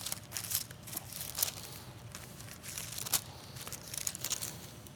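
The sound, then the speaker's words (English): Soft, crisp rustling of Bible pages being turned, with a few brief crinkly flicks standing out from a faint, steady background. “2 Timothy 2 gives us the structure, but then there's a couple of other verses that I want us to see in 1 Thessalonians. Turn just a couple of pages over.”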